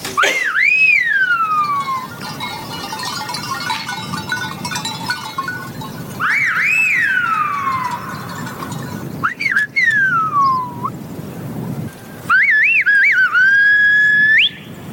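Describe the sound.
Silbo gomero whistled language in a valley: four loud whistled phrases with sweeping, sliding pitch contours, separated by pauses, over a steady background hiss.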